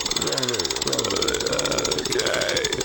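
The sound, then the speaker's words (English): Fast, steady ticking of a spinning prize wheel in a game, a rapid rattle of clicks running under people talking. “We give it another spin. Set the wheel up there. Here we go. Here we go. And away we go.”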